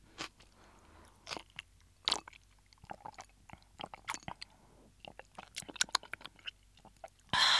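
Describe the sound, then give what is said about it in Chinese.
Close, crisp chewing of Chinese cabbage cooked in hot pot soup made from a Japanese supermarket soup base. Many irregular crunching bites and moist squishes come through fairly quietly, with no talk. “而且这里面的这个白菜真的是越吃越好吃，越吃越甜。”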